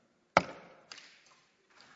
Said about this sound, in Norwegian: En dag så banker det hardt på klosterporten.